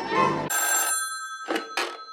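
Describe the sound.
A telephone rings in an office with bright, metallic bell tones in short bursts, a longer ring followed by a few quick pulses separated by brief silences.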